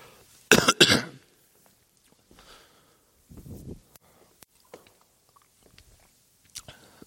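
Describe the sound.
A preacher in the middle of a sermon coughs and clears his throat: a loud double burst early on, then a softer rasp a few seconds later, with faint small mouth noises in between.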